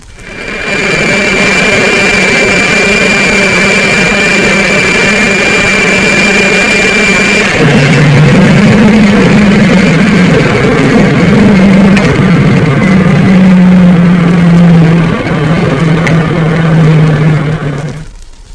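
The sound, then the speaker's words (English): Ventilator motors aboard a surfaced submarine hum steadily with a high tonal whine, and the pitch and tone shift abruptly partway through as the motors switch, settling into a lower, wavering drone. “Ventilator motors on and off with a sub on the surface.”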